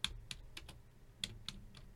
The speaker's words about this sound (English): So should I just type in Clark County 2022 primary results?